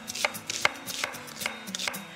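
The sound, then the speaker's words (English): A knife roughly chops an onion for a Mexican rice casserole. The crisp, fairly even chops repeat many times, some louder than others, over a faint low hum. “I've got some canola oil that I've started on the heat, and I'm just going to roughly chop an onion.”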